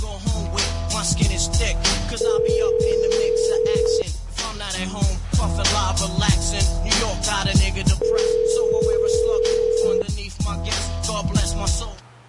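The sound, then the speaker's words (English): A telephone line tone on a call that may be a dead line: a steady electronic tone sounds twice, each lasting about two seconds, amid other continuous sound with no talking. “It might be a dead line, though.”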